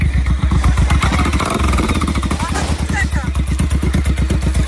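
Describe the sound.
Motorcycle engine running just after a difficult start, with a rapid, steady, loud thumping throb and some clattering knocks throughout.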